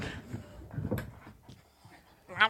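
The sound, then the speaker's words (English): A dog pants and snuffles in soft, uneven breaths, ending with a brief, sharper high whimper. “That's a dog, I feel like. Yeah. That's a dog. It's definitely a dog.”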